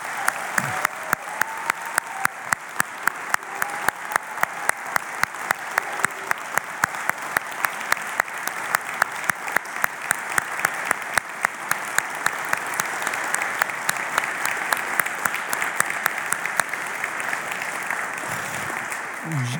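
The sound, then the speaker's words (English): Sustained audience applause given as one more round in honor of a man, many claps blending into a dense, steady roar that holds evenly for the whole stretch without letting up. “to fully honor John Jordan, I think we should just give him one more round of applause if we could.”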